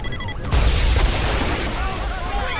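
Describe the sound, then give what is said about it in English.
A car bomb explodes as a fire engine speeds toward a university hospital. A sudden, heavy boom hits after about half a second and turns into a sustained, loud, roaring rumble that lasts to the end. “Miles sets off a car bomb as he speeds up to the university hospital”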